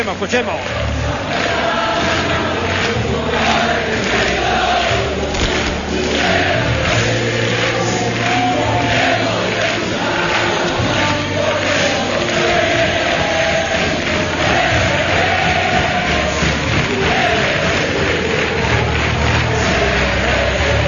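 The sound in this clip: Football fans in the stadium in Sevilla at a cup final make a loud, dense crowd roar that runs unbroken for the whole stretch, a thick wash of massed voices without pause or lull.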